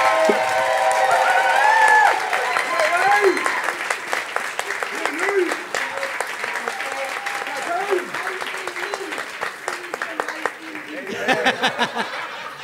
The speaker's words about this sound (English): Now it is your job as an audience to decide who is in fact the greater barbershop PhD. Is it Divine? Give it up for Divine.